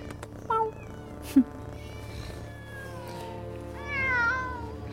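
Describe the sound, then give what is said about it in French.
Cats meowing, part of a group of about thirty cats found in a room, giving a few distinct meows of varied pitch over a steady low hum, with a longer rising-and-falling meow near the end. “Oh mon Dieu, des chats ! Une trentaine de chats !”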